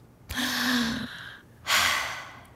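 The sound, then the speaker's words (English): A deep breath drawn in, a breathy inhale lasting under a second with a faint voiced edge. After a short pause comes a strong, rushing exhale that fades out. “Try it with me, kiddo. Take a deep breath.”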